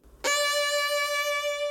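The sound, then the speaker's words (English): A D note starts with a crisp attack and holds for a little over a second and a half, carrying a narrow, subtle vibrato that barely shimmers the pitch. “So I'm going to take a D note, and I'm going to do some different vibrato”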